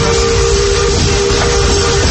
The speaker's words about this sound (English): By the way, we're traveling on pure steam power. This old locomotive is descended from the mighty trains that powered the golden age of steam.